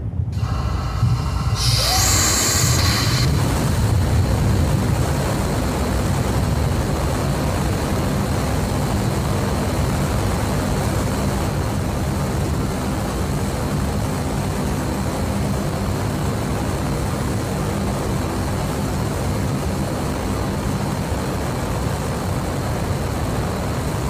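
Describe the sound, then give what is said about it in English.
A SpaceX Raptor rocket engine roars during a test firing, with a sharp ignition burst in the opening seconds followed by a continuous, loud, unbroken rumble. “So this is a Raptor firing.”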